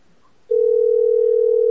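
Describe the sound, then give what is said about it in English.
A steady, single-pitched telephone tone on a Google Voice call cuts in abruptly after a short quiet stretch. It holds loud and unchanging to the end, where a faint click is heard. “And we call. I'm doing this on Google Voice in case they call back.”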